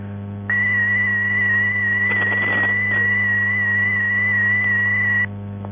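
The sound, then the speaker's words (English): The Datel 2400 data service sends a continuous tone signal: a single loud, steady whistle-like pitch that starts after a brief pause, holds for about five seconds with a short crackle of noise midway, then cuts off abruptly. “Finally, the Datel 2400 service, on which you would hear a continuous tone signal like this.”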